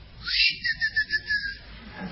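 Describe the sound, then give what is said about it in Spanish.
A person whistles to call a horse: a high, clear whistle with a quick run of short pulsed notes in the middle before it trails off. “Sí, Pepe le digo al caballo. Y le hice un chiflido.”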